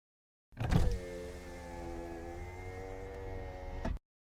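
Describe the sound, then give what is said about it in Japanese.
A car's electric power window on the driver's side runs as it is opened fully, giving a steady motor whir of about three and a half seconds that starts with a brief louder thump and cuts off abruptly. “運転席の窓を全開にした。”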